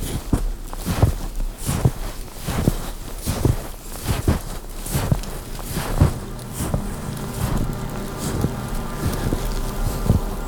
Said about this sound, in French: Vous marchez.